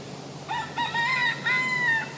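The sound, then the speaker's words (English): A big golden rooster with a red comb crows once, a loud multi-part call: a short opening note followed by two long, strained, drawn-out syllables, heard alone. “So it's got a red crown on its head. It's a big golden cock.”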